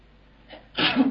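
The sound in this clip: A single human sneeze: a faint in-breath followed by a sharp, loud, breathy burst that trails off quickly.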